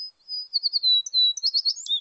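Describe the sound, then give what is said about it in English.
American tree sparrow calls: many thin, high-pitched chirps and twitters in quick, uneven succession, with no other sounds. “Despite their name, American tree sparrows stay close to the ground.”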